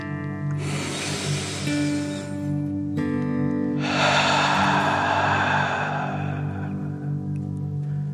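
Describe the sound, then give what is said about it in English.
A slow, deep breath fills the chest and belly: a long airy inhale, a short pause, then a long, slightly louder exhale. A steady tonal musical drone plays underneath throughout. “Last one, fill up your chest and belly. Deep breath in and out.”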